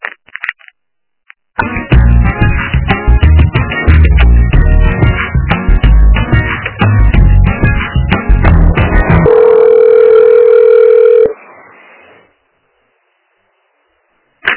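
Telephone line sounds during a call transfer: about eight seconds of loud, busy electronic tones, then a steady single tone for two seconds that fades to silence.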